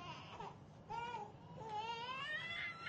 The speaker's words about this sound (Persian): چرا انقدر گریه میکنی؟ یکم طاقت بیار تا تکلیف روشن شو دیگه. لابد دل دردی، گوش دردی، یه دردی داره دیگه.